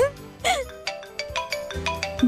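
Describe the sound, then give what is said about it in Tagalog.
A phone ringtone sounds for an incoming call, playing a bright melodic pattern of short repeating electronic notes, steady and moderately loud. “May tumatawag. Sino kaya to?”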